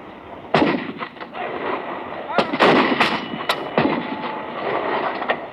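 Artillery guns fire a series of loud, sharp booms at irregular intervals, one after another, over a rumbling background.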